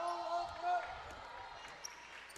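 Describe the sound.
A basketball being dribbled during a women's basketball game: a few faint, dull bounces thud under crowd noise and a voice that rings out.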